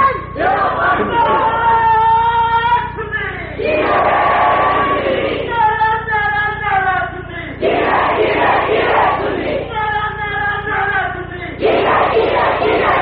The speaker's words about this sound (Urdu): سیدھا سیدھا نعرہ لگاؤ اور زور سے لگاؤ